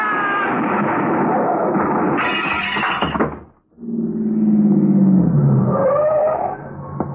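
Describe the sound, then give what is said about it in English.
A car skids and crashes into a cement post. Loud engine and tire roar is followed by a brief break, then a drawn-out squealing tone that slides lower. “we drove right into that cement post”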